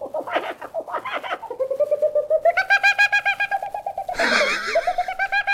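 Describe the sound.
A man imitates bird calls without talking. Quick chirping phrases give way to a long run of regular pulsed, cooing notes, then a brighter, noisier burst before the pulsing resumes.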